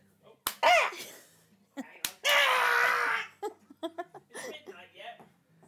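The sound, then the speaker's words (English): Playful birthday slaps: two sharp, loud smacks land a moment apart, surrounded by shrieks, laughter and excited voices. “Time to give you the birthday smacks.”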